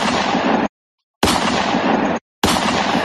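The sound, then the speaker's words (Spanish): Gunshots: three loud, dense bursts of roaring noise, each roughly a second long and cut off sharply, with brief silences between them. “¡Nos disparan, nos disparan!”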